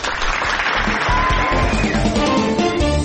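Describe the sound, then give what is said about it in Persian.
Applause greets the announcement of a weekly award, a 'golden egg' prize given to a newspaper: dense, steady clapping that holds at an even loudness throughout without pausing. “حالا بزن دست قشنگرو.”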